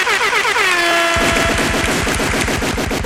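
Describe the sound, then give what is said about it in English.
A man's voice imitates gunfire: a brief tonal, horn-like vocal sweep gives way to a long, loud burst of rapid, machine-gun-like staccato pulses that keep going to the end. “I don't know why I just did like a lot of gunshots.”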